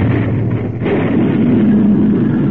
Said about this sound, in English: That should have done something. Yeah, it's a fifth blast we set out.